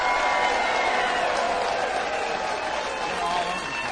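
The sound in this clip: A studio audience at a live music and entertainment show applauding and cheering, a thick, even wash of clapping and crowd noise that holds steady throughout.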